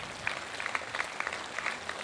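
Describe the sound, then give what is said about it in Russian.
Applause from an audience at a church service: a dense, steady patter of many hand claps with no clear pauses, fairly quiet and without voices. “Давайте Богу дадим аплодисменты.”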